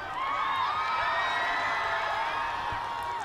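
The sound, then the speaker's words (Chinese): Cheering and applause from an audience greeting the six women of a performing group, with sustained high-pitched screams and whoops over a steady, loud crowd roar. “掌声送给尚雯集团的六位姐姐”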